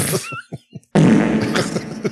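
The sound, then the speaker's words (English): A loud, drawn-out fart with a rough, sputtering low rasp that lasts over a second, coming right after a few words of speech. “All that murderer makes him gassy. Just. Being scared makes him fart.”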